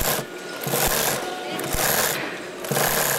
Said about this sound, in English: 100 young Indian men and women sit behind sewing machines working on pants for the European market.